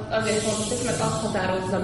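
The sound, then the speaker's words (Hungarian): Hissing from a jar of water kefir in its second fermentation: a steady, airy fizz that runs the whole clip, with a voice talking over it. “Közben kaptunk egy üveget, amiben sziszeg egy másoderjesztés.”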